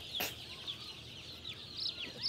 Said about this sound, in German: Iris auffälliges Küken findet sich auch ohne Brille wieder.